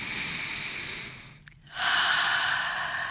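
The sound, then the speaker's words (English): A big breath is taken: a steady, airy rush of breath that fades into a brief hush with a small click, then a louder, fuller rush of air that holds to the end. “Take a big breath.”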